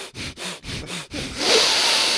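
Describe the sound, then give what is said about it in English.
A person sniffs while tasting drinks, with about five quick, rhythmic, breathy sniffs followed by a longer, steadier airy inhale. “I'm sniffing. I'm sniffing.”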